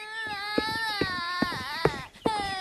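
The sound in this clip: A young girl cries after falling while climbing out of a wooden barrel and bloodying her mouth, a loud, high-pitched, wavering wail broken into several sobbing bursts with short catches of breath between them.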